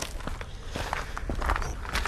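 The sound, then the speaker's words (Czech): Footsteps climb a lookout tower at Cibulka, a dense run of many quick, scuffing steps over a steady noisy background with no talk. “Tak, lezeme na věž na Cibulce.”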